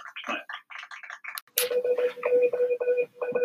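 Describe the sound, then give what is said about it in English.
Telephone-dialing sound effect used as a jingle announcing a caller: a quick run of chirpy electronic bursts, then steady pulsing tones that repeat in a regular pattern. “What that is, that's an announcement that we have a caller on the line.”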